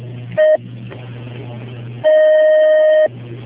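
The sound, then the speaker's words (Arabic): Ringing tone on a telephone line while a call is placed: a short steady beep, a pause, then a second steady tone lasting about a second, both at one fixed pitch over a low constant hum, with no talking. “نحن نتصل.”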